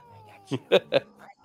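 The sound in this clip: A cat meows three times in quick succession, short loud calls spaced about a fifth of a second apart, over a faint low hum.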